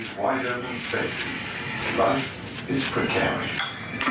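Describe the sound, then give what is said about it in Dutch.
A knife spreads butter on a slice of bread in a kitchen, giving repeated soft scraping strokes with light metallic clinks, steady and moderately quiet. “Ze smeert boter op een sneetje brood.”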